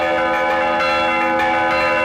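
Traditional village church bells ring in a loud, sustained wash of overlapping metallic tones, with fresh strikes sounding every so often over the ringing hum. No voices are heard.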